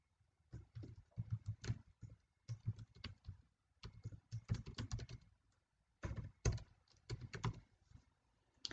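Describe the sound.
Numbers are typed into a spreadsheet on a computer keyboard in quick bursts of key taps, grouped in several runs with short pauses between, fairly faint and with no voices.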